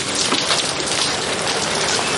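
Heavy May rain pours down in a dense, steady hiss of countless drops, loud and constant with no break.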